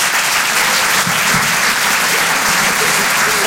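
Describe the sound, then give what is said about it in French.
Audience applauding at a comedy club: a dense, even wash of clapping that stays loud and steady throughout, without a break or a clear voice. “Je vous demande de l'encourager, s'il vous plaît. Faites du bruit pour Rémi Boy.”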